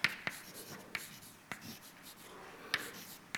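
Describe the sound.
Writing on a board during a lecture: faint scratchy strokes punctuated by a few sharp taps, with no talking.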